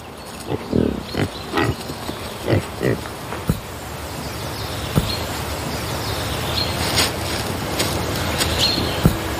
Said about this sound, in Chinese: 野猪同样也有着自己的领地意识。